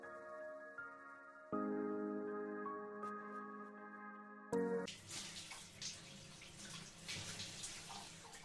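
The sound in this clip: Water running into a bathtub while someone bathes: after a few seconds of quieter tonal hum, a steady rushing, splashing flow starts abruptly and continues, with no talk.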